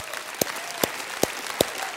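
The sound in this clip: Faint applause at a religious gathering for people who had just raised their hands. Five sharp, evenly spaced claps stand out over a soft wash of clapping.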